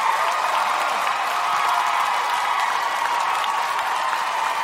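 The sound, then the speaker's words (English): Dense audience applause welcoming a guest, a former Planned Parenthood president, onto the stage at a live show in Boston: a steady roar of many clapping hands held evenly for the whole stretch. “I go on hardball. I don't get that type of applause.”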